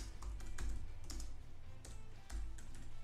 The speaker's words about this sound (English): I'm going to click things down and do weird things with my computer as we talk.